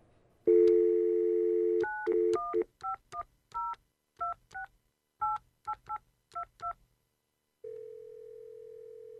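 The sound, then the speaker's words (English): A telephone number is dialed: a steady dial tone gives way to a rapid string of many short dual-tone keypad beeps, followed by a steady electronic line tone, with no talking. “Maybe I ought to call my dentist.”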